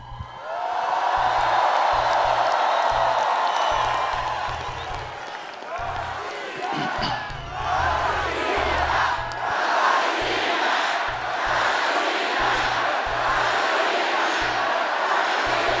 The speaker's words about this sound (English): Tens of thousands of people on the Red Square in Moscow celebrates the ascension of the four new regions here.